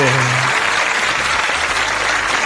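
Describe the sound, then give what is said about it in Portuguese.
Applause from a crowd at a Brazilian funk show, a dense steady wash of clapping that stays loud throughout, with a brief low musical tone early on. “uma salva de palmas pra ele, DJ Rai”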